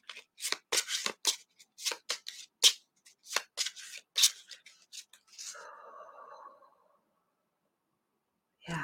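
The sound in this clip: Cards riffled and shuffled during a card reading, giving many quick, crisp flicks and slaps in irregular bursts. A softer, sustained rustle follows before the sound fades to silence.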